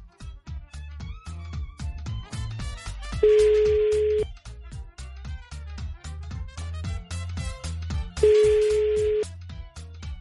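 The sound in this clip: A telephone line rings out after a number is dialed for a prank call: two long, steady ringing tones about five seconds apart, each lasting about a second, over continuous background sound.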